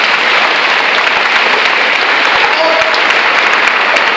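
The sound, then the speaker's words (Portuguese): Church audience applauding, dense, loud clapping that stays steady and unbroken from start to finish. “Pode aplaudir o Senhor no seu lugar.”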